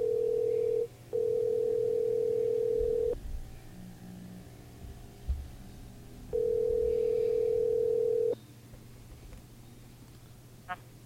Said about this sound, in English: So give me a second. I'll call my next guest.